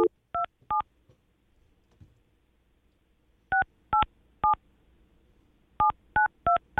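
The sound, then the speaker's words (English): Telephone keypad tones as a friend's number is dialled: short, sharp two-tone beeps in three quick clusters separated by pauses, heard alone over faint background hiss. “Let's just call Haley one more time and then we're out of here.”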